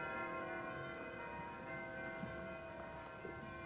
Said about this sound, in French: Oh, les maudites cloches, quand auront-elles fini de me mener en terre?